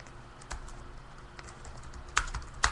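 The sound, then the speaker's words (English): Sparse clicks of typing on a computer keyboard, just a few isolated keystrokes over a faint, steady background hiss, with two sharper taps near the end. “When I'm really high, I can't type that good if I think about it.”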